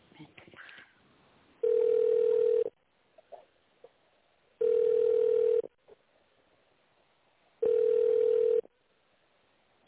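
Telephone tones play while a call is transferred: three long, steady beeps of equal pitch, evenly spaced, with faint line hiss in the quiet gaps between them.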